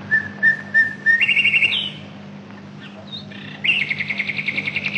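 A nightingale sings clear whistled notes, then bursts of rapid, repeated trills. The song is loud over a steady low hum, with a short pause in the middle.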